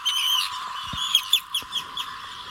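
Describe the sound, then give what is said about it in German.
Harsh, shrill calls of an Arctic tern: a drawn-out rasping cry, then several quick, grating squawks in close succession. “Die Küstenseeschwalbe, so klingt sie übrigens.”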